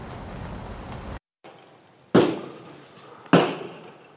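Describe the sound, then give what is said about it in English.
Two loud, sharp gunshots are fired from a car's rear window toward a sheriff's deputy during a confrontation in Volusia County, Florida. Each abrupt crack decays quickly, following a stretch of steady noise that briefly cuts out. “Shooting out the rear window toward my direction.”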